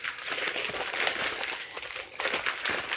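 Crinkling and rustling of wrapping paper as presents are torn open on a book-gift day, a dense, continuous papery crackle that stays fairly loud throughout with only a brief dip near the end.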